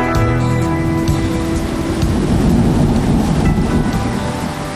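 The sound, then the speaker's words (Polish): Rain falls as a dense, steady hiss with a heavy low rumble underneath, loud and unbroken for the whole stretch, with no voices. “miejmy nadzieję, że ten deszczyk szybko przejdzie.”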